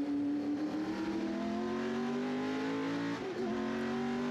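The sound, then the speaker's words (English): A race car engine drones loudly and steadily as the car is driven hard on a track under braking. The pitch creeps slowly upward, with a brief wavering dip near the end. “The car really moves around under braking.”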